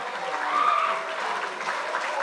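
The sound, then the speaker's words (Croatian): Cheering and applause for girls competing in a tug of war, a continuous mass of clapping with raised voices mixed in. “Bravo, idemo navijat malo za djevojke.”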